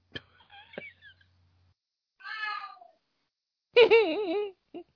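A cat meows a few times: drawn-out, wavering harmonic cries separated by quiet gaps. The loudest, longest call comes near the end and is followed by one brief, short mew.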